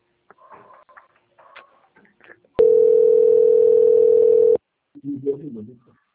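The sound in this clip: A telephone line tone plays while a call is being transferred: one steady, sustained pitch lasting about two seconds, cutting in and out abruptly between stretches of talk.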